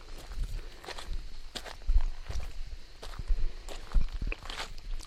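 Footsteps walk along a path heading west in the early morning, a steady run of many soft crunching steps in an even rhythm, with no voices.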